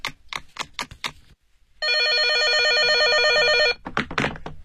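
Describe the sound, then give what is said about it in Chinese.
Telephone ringing as a call is placed to a pharmacy: a single loud electronic warbling ring lasting about two seconds, with a run of sharp clicks before it and a few more after. “啊，我给药房打个电话。”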